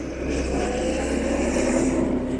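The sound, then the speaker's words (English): Engine noise from police and army vehicles turning around and driving away from a damaged factory: a steady, fairly loud low rumble with broad road hiss that holds even throughout. “without even getting out of their vehicles, they turn around and start to leave.”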